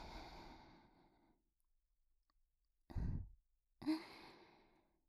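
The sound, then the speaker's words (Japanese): Deep breathing, with a long, slow, soft exhale followed after a pause by two shorter, sharper breaths, all quiet and close. “深呼吸をしましょう。ほら、吸って、吐いて、”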